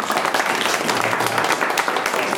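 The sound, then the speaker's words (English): A round of applause from an audience at a gathering, greeting a board co-chair: a continuous, even rush of many hands clapping, fairly loud and steady throughout with no clear pauses. “Let's give Carol a round of applause.”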